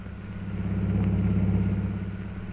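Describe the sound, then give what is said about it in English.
Steady engine drone of a car driving through the streets of Shanghai in the 1930s, a low, even rumble that swells slightly in the middle and eases off toward the end, with no voices. “driving through the streets of Shanghai on their way to the Jockey Club”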